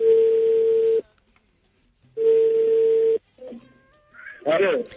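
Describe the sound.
An outgoing telephone call rings through as two long, steady ringback tones, each about a second, separated by silence, before a voice answers and talking begins.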